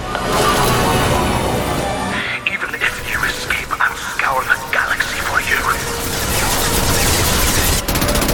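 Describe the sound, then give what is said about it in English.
Rapid video game gunfire, dense overlapping bursts that fill the whole stretch, easing a little in the middle where a voice cuts in before the heavy firing swells again. “Taking heavy fire.”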